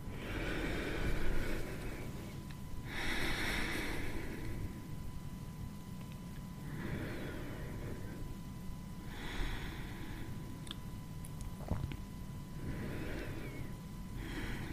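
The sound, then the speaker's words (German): Slow, deep breaths into the chest, with soft airy inhales and exhales alternating in a steady rhythm of a few seconds each, faint and unhurried with no talking. “Und dann bleib auch gerne noch hier für drei tiefe Atemzüge in deinen Brustkorb.”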